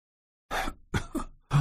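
A person clears their throat, heard alone as three short, rough, throaty bursts, the last one strongest.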